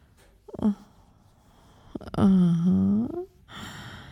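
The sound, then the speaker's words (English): A low, drawn-out voiced groan of enjoyment from a person during an intimate encounter. It lasts about a second and follows a brief, breathy vocal sound. “I guess that groan means you're enjoying yourself.”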